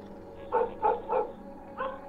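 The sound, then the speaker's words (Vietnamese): A dog barks fiercely in short, jerky bursts at night in an empty house: a few quick barks, a brief pause, then more. The barks are moderately faint and heard alone. “Con chó nó sủa dữ lắm, tiếng cứ giật giật, nhát gừng.”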